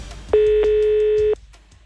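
A telephone tone sounds as a call is dialed: one loud, steady buzzing tone lasting about a second, standing alone with faint sounds before and after.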